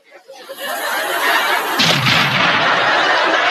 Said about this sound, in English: this is an actual bomb exploding